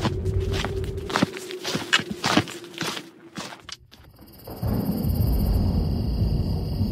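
Fast footsteps of people hurrying along, a rapid run of sharp steps over the first few seconds that then gives way to a steady, louder rushing noise.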